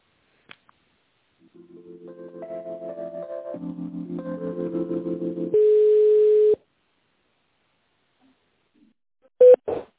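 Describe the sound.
Telephone tones play while a call is transferred: a rising run of electronic beeps, then a longer steady tone, a pause, and two short final beeps. No one talks.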